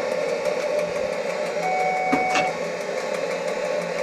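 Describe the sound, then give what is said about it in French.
A driver's safety pedal in a Swiss train cab gives a short steady tone and a sharp click midway, over constant loud running noise and rumble from the cab. “Vous avez entendu maintenant, c'est la pédale. Le mécanicien doit toujours peser sur une pédale. Sinon, s'il lâche la pédale, le train s'arrête.”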